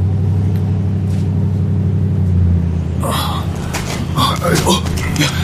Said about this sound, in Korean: 어, 온다. 와. 저 버스겠지.